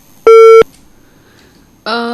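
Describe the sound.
A telephone busy tone after a farmer caller hung up: one short, steady, loud beep, then a pause, and a voice begins near the end.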